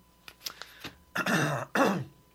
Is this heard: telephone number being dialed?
no